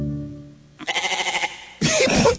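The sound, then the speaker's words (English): Goat bleats close an early version of a streaming service's signature sound logo. A sustained musical chord gives way to a quavering, rapidly pulsing bleat, then a louder, harsher second bleat. “He put a goat at the end of it because he said he thought goats were fun and quirky.”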